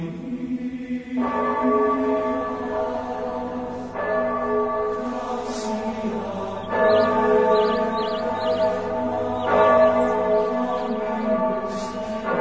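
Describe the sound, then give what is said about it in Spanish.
Church bells rung by a monk at a monastery sound loud and resonant, with several fresh strikes a few seconds apart and each ringing tone sustaining into the next, with no voices over them. “Toca las campanas el hermano Samuel.”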